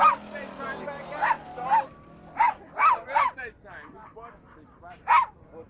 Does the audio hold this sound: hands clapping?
no